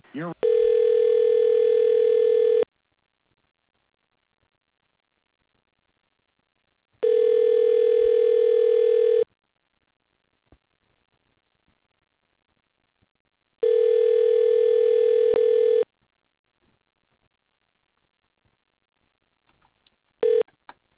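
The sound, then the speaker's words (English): Telephone tones while a call is transferred: three long, steady electronic tones of about two and a half seconds each, separated by roughly four seconds of silence, followed by a short beep at the end. “please hold while your call is being transferred.”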